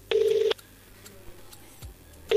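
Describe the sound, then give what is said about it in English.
Telephone keypad tones as a call is placed: one clear, loud tone of about half a second, then a quiet pause, then another tone starting at the very end. “All right, let me give them a call. Let me give them a call right now.”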